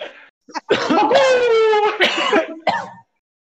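Loud, throaty coughing from a person: a quick run of harsh bursts with a strained, voiced tone, one of them drawn out much longer than the rest, followed by a few shorter coughs.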